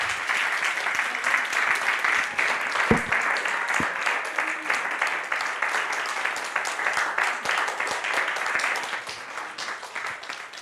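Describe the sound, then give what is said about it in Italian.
Audience applause at the close of an evening history talk, a dense, steady patter of many clapping hands that carries on for several seconds before thinning slightly toward the end. “applausi.”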